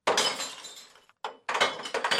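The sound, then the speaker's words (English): Glass bottles dropped through a hole in the lid of a glass-only recycling dumpster crash and shatter in two loud clattering bursts separated by a brief pause, the second burst ending in sharp, ringing breaks. “they must bring it to a dumpster like this one, labeled glass only, and drop bottles through a hole in the lid.”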